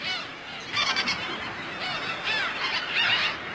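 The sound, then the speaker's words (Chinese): Thousands of gulls gathered in June at a desert lake to breed, their calls forming a dense, continuous chorus of overlapping squealing and honking cries with no pause. “六月，数千只蚁鸥汇聚到沙漠中的岩沼，繁育后代。”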